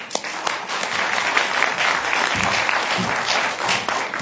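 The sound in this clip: An audience applauds to welcome a speaker, with a dense, even wash of many hands clapping that holds steady at a strong level throughout.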